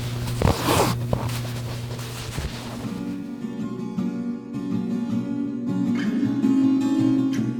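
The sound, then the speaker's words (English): Thread drawn through a quilt during hand quilting with a metal-tipped pushing thimble: a few raspy, zipper-like pulls in the first half, then a steadier, quieter humming background with faint scratches. “I have a pushing thimble with a metal tip, and that helps push the needle through. And that drawing the thread through the quilt is just one of the most satisfying sounds to me in the whole world.”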